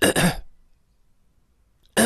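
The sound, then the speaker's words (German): A voice imitates a woman's repeated throat clearing: a rough two-part rasp, then silence, then the start of another rasp at the end. “Und seine Frau fiel mir erstmal dadurch auf, dass sie sich dauernd geräuspert hat.”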